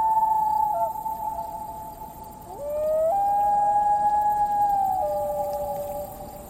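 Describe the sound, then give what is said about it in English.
A common loon gives a long wailing call over clean water: one sustained, steady tone, then a second phrase that slides upward and holds high and loud before easing down. No voices are heard. “There is no sound that I am so fond of as the song of the loon.”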